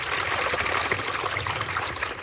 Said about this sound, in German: ein klarer, gurgelnder Bach mit Bäumen und Büschen links und rechts, schön heimelig, traut und eingewachsen und mit klarem Wasser